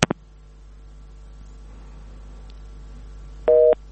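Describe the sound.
Busy signal after a listener's phone call to a radio show disconnects: a single short dual-pitched beep near the end, following a couple of clicks at the start and a long stretch of low hum.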